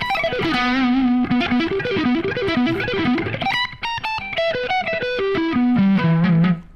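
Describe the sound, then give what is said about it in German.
An electric guitar plays through a heavily distorted vintage shred amp sound with high gain, giving a loud, sustained lead line of held, wavering notes that breaks into quicker melodic runs before settling on a long final tone. “Eher ein bisschen mehr Gain. Verzerrung. ja, vielleicht die Verzerrung.”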